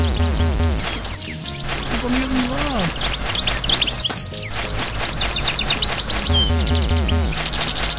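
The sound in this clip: Birds sing in a video game, with many quick high chirps and tweets repeating over a dense, steady background sound.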